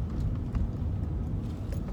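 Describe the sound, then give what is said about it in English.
A car drives around the city with a steady, low engine and road rumble. The rumble stays continuous at an even level throughout, with no talking. “I'm not home. I'm driving.”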